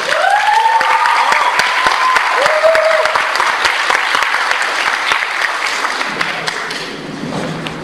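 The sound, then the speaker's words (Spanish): Applause welcoming speakers at a comics convention: a full crowd claps loudly and steadily, then the clapping gradually dies away over the last couple of seconds. “Vamos a recibirles con un aplauso.”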